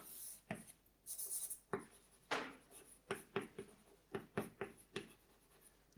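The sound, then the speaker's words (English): Chalk or marker strokes on a board during a mathematics lecture: many short, scratchy squeaks and taps in an uneven rhythm, quiet and heard alone without talk. “So this here equals, I can actually write the diagonal.”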